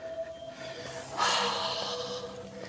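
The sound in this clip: An audible exhale during a yoga flow, a breathy rush that begins after about a second and trails off gradually over a faint steady hum.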